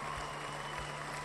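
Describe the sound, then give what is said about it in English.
Applause from a crowd of constituents at a political event, a faint, steady wash of many hands clapping for just over a second, with no voices. “That's Michelle's constituents applauding her vote on a bipartisan bill to eliminate taxes on rent.”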